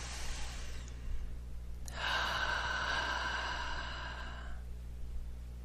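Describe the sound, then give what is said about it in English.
A long, deep inhaled breath, airy and steady for a couple of seconds, soft and alone, with a fainter breathy hiss before it. “Okay, nice deep breath.”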